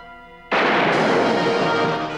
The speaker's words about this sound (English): The woman shoots Abram. Now we've finished the job. She steps towards Kirk, her pistol raised menacingly.